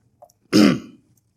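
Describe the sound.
A single short, harsh cough from someone after something went down the wrong way, heard alone with a faint click just before it.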